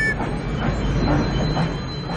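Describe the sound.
A train rolling along: a loud, steady low rumble with a faint clatter of wheels on rails and no voices.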